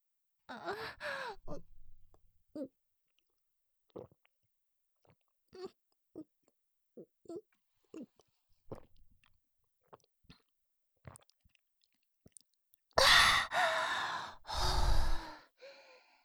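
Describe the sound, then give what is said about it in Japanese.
Chilled mineral water gulped down by a thirsty, sweaty person: a run of faint, brief swallows spaced through the middle, opened by breathy sighs and closed by a loud, satisfied exhaled sigh. “おいしい。いっぱい汗かいて喉が渇いていたから一気に飲んじゃいました。”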